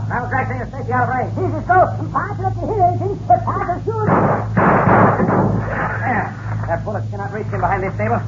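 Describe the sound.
Gunfire in a Western shootout: a few loud, sharp gunshot bursts cluster in the middle, with people talking and shouting before and after.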